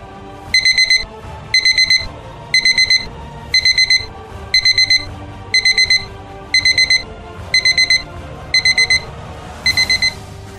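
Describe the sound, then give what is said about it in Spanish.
An alarm clock rings in ten regular bursts. Each burst is a rapid cluster of loud, high-pitched beeps, with short gaps between bursts. “La alarma sonó.”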